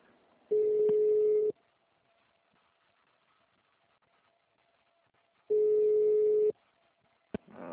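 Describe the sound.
Telephone ringback tone sounds while a call to a Santander bank loan agency connects: two steady one-second beeps at a single constant pitch, separated by a long silent gap, then a brief click.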